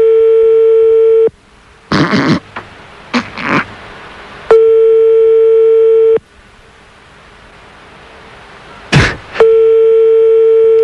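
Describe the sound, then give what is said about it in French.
A telephone ringing tone heard down the line during a prank call to France: a steady, buzzy tone sounds in three long pulses, with bursts of clatter and thumps in the gaps between them. “Ça sonne en France, quelque part.”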